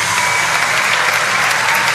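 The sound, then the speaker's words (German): A standing audience in a tent applauds the actors of a hero film as they come on stage, a loud, dense, unbroken roar of clapping at a constant level. “Großer Applaus des Publikums. Das Publikum hat sich erhoben.”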